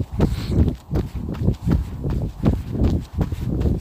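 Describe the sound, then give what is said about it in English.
Running footsteps from an interval run-walk workout, a steady rhythmic beat of many dull, thudding strides. “But I'm running for a minute.”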